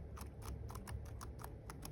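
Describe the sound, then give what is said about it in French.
A search for Prime Video being typed, with evenly spaced sharp clicks repeating about a dozen times in a steady rhythm over a low constant hum. “Donc, je vais donc taper l'objet de ma recherche, Prime Video.”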